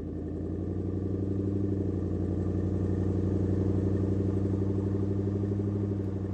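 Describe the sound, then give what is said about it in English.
A car engine hums as the car flies through the sky, a smooth and steady low drone with an even tone that holds constant throughout, heard alone and fairly quiet. “The car takes to the sky again.”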